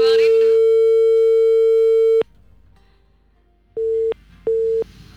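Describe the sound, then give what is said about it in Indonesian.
A telephone busy or disconnect tone on a radio call-in line after the caller dropped off. A brief voice is heard at the start, then a long steady mid-pitched tone, a pause, and two short beeps. “Oke, teleponnya terputus ya pendengar.”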